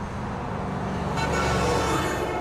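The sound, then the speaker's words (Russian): A car being driven with passengers asleep in the back seat: a steady, dense rumble of engine and road noise that runs unbroken for a couple of seconds and brightens slightly partway through. “Лев ведет машину, Алла и Соня спят на заднем сидении.”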